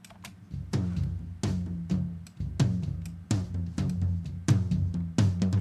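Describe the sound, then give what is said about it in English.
Soloed drum toms, EQ-boosted for low body and bright attack and gated hard, play a rolling pattern of deep, punchy hits with short, clipped decays, fairly quiet with no other sound. “Like I said, just boosting a little bit around 110 area, and then boosting some at 5K. So this is what their toms sound like. I'll solo up the toms”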